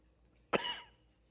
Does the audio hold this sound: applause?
no